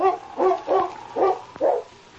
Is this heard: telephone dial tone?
no